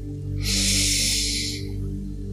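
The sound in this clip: A deep breath drawn in during a guided breathing exercise: one airy hiss lasting about a second, swelling and fading over a steady low drone.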